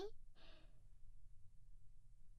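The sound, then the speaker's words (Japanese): A single deep breath drawn in, soft and airy, rising as a brief rushing swell after a short opening puff, with no talking over it. “はい、大きく息を吸って、”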